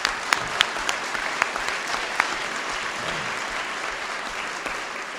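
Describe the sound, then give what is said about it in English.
Audience applause for the organising committee at an Al-Anon gathering: a steady, dense wash of clapping that holds for the whole stretch, with a few sharper individual claps standing out near the start. “How about let's hear it for the committee, huh?”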